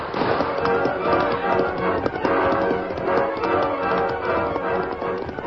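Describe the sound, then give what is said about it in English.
A horse gallops away at a fast pace, a dense, rapid drumming of hoofbeats with steady rhythm and fairly even loudness throughout. “Ranger rode Silver at a fast pace from the arroyo and raced away from the posse”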